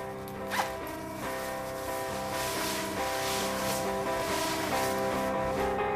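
A zipper on a pair of pants is pulled down, a raspy rip set against a steady background of tones.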